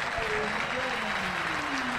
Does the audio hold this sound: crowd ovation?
yes